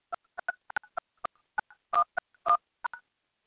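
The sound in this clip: Telephone keypad tones enter a PIN on a phone-in host line: a quick, uneven series of short, clean dual-tone beeps, some held slightly longer, with no voices.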